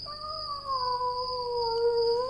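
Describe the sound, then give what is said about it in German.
A cat gives a single long, drawn-out meow, the call of an unfamiliar cat. It is tonal and sustained for about two seconds, and its pitch sinks slightly toward the end. The meow is heard alone. “Dieses Miauen, mein Lieber, kommt nicht aus unserer Familie. Es klingt merkwürdig fremd.”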